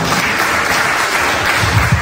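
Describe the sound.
Audience applause in an assembly: dense, loud clapping from many hands holds steady through the whole clip, with no voices above it.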